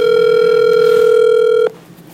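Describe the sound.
A steady telephone ringback tone plays as an outgoing call rings out on speakerphone. A single continuous, even-pitched tone sounds alone for about 1.6 seconds, then cuts off abruptly into faint background hiss.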